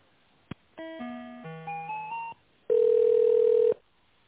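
Telephone line tones play while an office call is transferred: a single click, a quick run of stepped electronic beeps at changing pitches, then one steady, louder beep that holds for about a second before cutting off.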